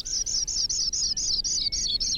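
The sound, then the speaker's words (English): A grassland songbird on the northern Great Plains calls in a rapid, evenly spaced series of high, bright chirps, faint and alone over a soft background hiss. “Why do so many species of birds choose the northern Great Plains to raise their young? Like the lark bunting, Sprague's pipit,”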